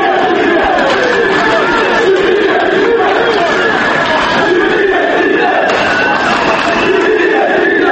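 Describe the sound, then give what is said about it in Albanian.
A large crowd of protesters in Skopje chants freedom, equality and justice in front of the palace of courts at a mass opposition-backed demonstration. The chanting is a dense, steady roar of many voices that holds at full strength throughout. “Me brohoritjet liri, barazi dhe drejtësi ka nisur protesta masive e disa mira e qytetarve para palatit të gjykateve”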